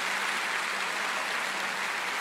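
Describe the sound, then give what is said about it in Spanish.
A church audience applauds during worship, a dense, even wash of clapping that holds steady at a constant level from start to finish. “Dale un aplauso grande, es al Rey al que está adorando.”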